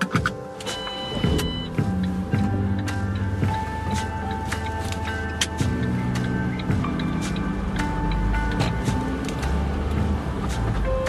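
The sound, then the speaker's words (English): A car drives along an island village road from a ferry terminal, its engine giving a steady drone with shifting whining tones and scattered clicks and rattles. The sound stays continuous and fairly loud, with no voices. “We'll just start off here maybe and drive over along the road.”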